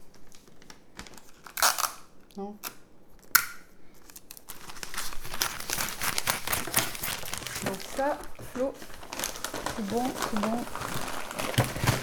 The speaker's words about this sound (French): Les voilà les chaussettes emballées. Et voilà, le tour est joué.